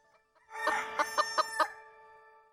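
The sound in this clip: A chicken clucks during a quiz game in which it picks the answers: a drawn-out harmonic call followed by a quick run of four clipped, pulsing clucks, then a softer fading tail, with no talk over it.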